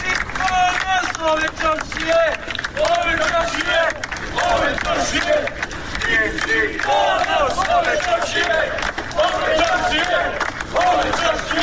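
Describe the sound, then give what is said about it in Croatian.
Townspeople cheer, shout and applaud as a teacher leaves a police station after giving a statement, accompanied by her family. Many overlapping voices rise and fall in loud bursts, with scattered clapping mixed in. “a građani su je dočekali aplauzom i povicima da je ponos čaršije”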